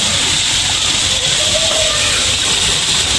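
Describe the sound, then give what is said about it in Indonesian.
Water boiling on a briquette stove gives a loud, continuous hissing and bubbling roar, steady throughout with no breaks. “Yang cepat mendidihnya.”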